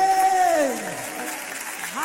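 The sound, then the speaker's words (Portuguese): A worship audience claps steadily for God, the dense, even applause running under a voice at church. “Mas olha que as palmas para o nosso Deus, aleluia.”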